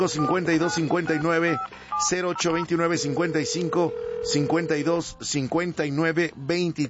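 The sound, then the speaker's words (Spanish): Touch tones of a telephone number being dialed sound as a string of short electronic beeps, mixed with a voice throughout. “Me voy a la línea telefónica, abro la número 7 para marcarle a don Enrique Isidro.”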